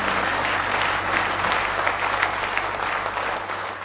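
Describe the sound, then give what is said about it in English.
A church audience claps in praise during a morning service, a sustained, even roar of many hands applauding together, fairly loud and steady over a low constant hum. “Give the Lord a hand clap of praise this morning.”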